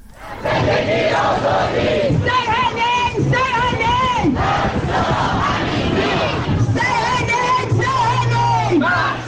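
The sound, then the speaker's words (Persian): Protesters in London chant slogans together in support of Mahsa Amini and the Woman, Life, Freedom movement. Loud, sustained massed voices repeat rhythmic phrases with brief pauses between them. “این صدای گروهی از معترضان در لندن است که در حمایت از مهسا امینی و جنبش زن، زندگی آزادی شعار می‌دهند.”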